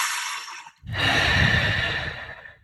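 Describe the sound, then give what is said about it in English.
A long, breathy exhalation, all the breath let go during a guided breathing exercise for chanting and finding a vocal note. A softer breath comes first, then a brief gap before the steady airy rush that slowly fades. “So just let all the breath go.”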